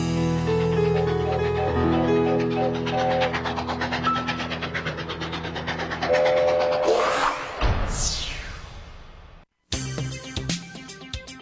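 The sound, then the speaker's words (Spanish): A train with its bell ringing: loud, sustained engine tones and clatter, with a sliding tone near the end. A brief silent gap follows, then quicker rattling. “A ver quién sube a mi fábrica de nubes y toca la campana de nuestro tren.”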